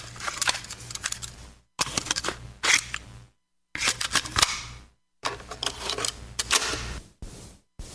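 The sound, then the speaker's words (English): A cassette tape is pushed into a tape deck, producing a few bursts of sharp mechanical clicking and rattling separated by brief silences. “That sound. The tape has popped into the deck and we are ready to roll.”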